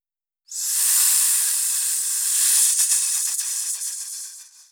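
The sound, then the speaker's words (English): A loud, steady, high-pitched hiss starts abruptly after a brief silence. It holds evenly, picks up some crackly texture near the end, then tapers off. “Hiss.”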